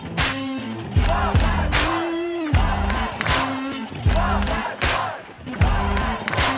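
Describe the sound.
Crowd cheering in celebration of the Supreme Court's 5-4 ruling making same-sex marriage legal across the United States: loud, continuous shouting and whooping voices with repeated surges of excitement.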